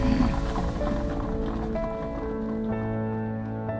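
A horse-drawn carriage travels along a tree-lined park drive toward a manor house, with a soft, steady clatter of hooves and wheels under sustained musical tones.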